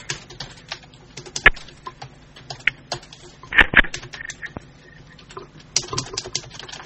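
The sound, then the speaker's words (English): Typing on a keyboard: many irregular key clicks, mostly light, broken by a few sharper, louder strikes, with no talk over them. “It sounds like somebody typing. Yep, that was me.”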